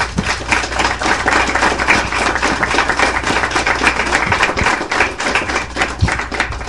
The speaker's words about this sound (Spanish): Un aplauso para todos ellos, por favor.